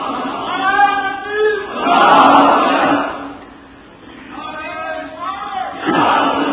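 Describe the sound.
An audience at a religious lecture chanting slogans: loud, massed voices shout in swelling waves that rise and fall, with a brief lull before the chanting surges again.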